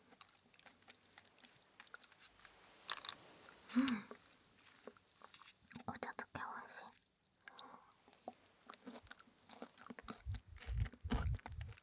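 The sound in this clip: Soft crunching and chewing of softened rice crackers (senbei), with many small bites and mouth sounds in irregular rhythm, alongside quiet whispering.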